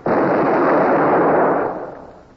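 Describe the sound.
Cannon fire from the first division of a warship's guns in a naval battle: one loud, roaring blast that sustains for over a second before fading away, with no voices.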